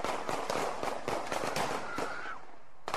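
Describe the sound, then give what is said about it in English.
Gunshots fired into the air in filmed footage crack out as many sharp, faint bangs in an irregular burst over a steady background rumble. “You can hear the bullets going.”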